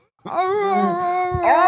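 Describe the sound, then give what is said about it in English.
A deep human voice imitates a husky dog howling, holding one long wavering wail before a brief break and a final rising, yelping glide. “Wow, you do dog impressions good too. Dog voices. It's not just humans. Mm. You got huskies down.”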